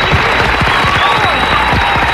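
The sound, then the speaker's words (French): Applause from a studio audience greeting a guest on a French radio show, a dense, loud, steady wash of clapping that holds at an even level for about two seconds. “Donc là je vais dire on va t'applaudir, bravo. D'ailleurs on va y mettre plus le paquet.”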